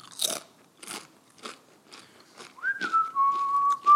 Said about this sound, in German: Ich esse jetzt gerade das Chips. Einfach so zum Warten.